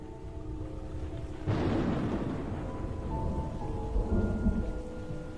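Steady rain hisses throughout a story sound effect, and a single loud thunderclap breaks in early, rolling into a long, deep rumble that lingers under the downpour to the end.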